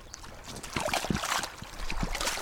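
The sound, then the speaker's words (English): Water splashing and sloshing as rubber boots are washed in a stream after hours of peat cutting, an irregular, continuous run of wet splashes over steady trickling. “washing their rubber boots in a stream after a few hours peat cutting”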